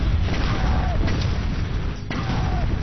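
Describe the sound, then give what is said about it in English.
Mortar shells exploding in a capture-the-flag video game, with dull booms rolling through a dense, loud, continuous wash of game noise. “Mortars come in.”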